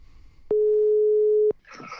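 A telephone line tone sounds while someone places a call: a single steady, low-pitched electronic tone holds for about one second, then cuts off sharply.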